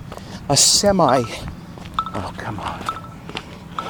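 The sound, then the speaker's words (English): Telephone ringing with an incoming call, a short, loud warbling electronic ring, followed by a voice talking. “There's another phone call. All right. Back again.”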